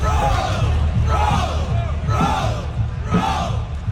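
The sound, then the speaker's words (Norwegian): Crowd of Canadian fans at a World Cup chanting "ro" (row), four loud, drawn-out shouts in a steady rhythm over a constant roar of crowd noise. “For nå har de også begynt å rope ro og gjøre sånne padlebevegelser under VM. Altså, hør på det her.”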